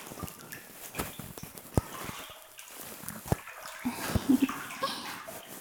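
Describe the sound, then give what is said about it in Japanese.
Warm bath water poured over someone's shoulders: a soft, continuous splashing trickle broken by a few sharper drips and knocks, faint throughout. “肩にもお湯かけてあげます。”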